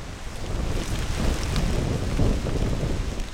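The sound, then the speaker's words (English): Wet corn stalks smack in blustery wind and rain at the entrance of a 10-acre corn maze on a farm. A dense, continuous rushing of rain and wind is laced with rustling, slapping noises. “That's the sound of wet stalks of corn, smacking in the wind at the entrance of Jacob's corn maze.”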